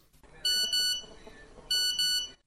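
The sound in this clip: Morning phone text message notification beeps: two pairs of bright, high electronic tones, each pair of steady pulses, sounding loud over a faint background.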